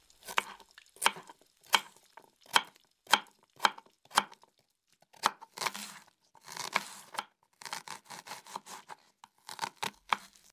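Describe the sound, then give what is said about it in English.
A knife cuts tomato, lettuce and onion for a hamburger, with many sharp, crisp chops on a board followed by rustling, tearing and crunching sounds. “Now, cut the tomato, the lettuce, and the onion, and put it on the bread.”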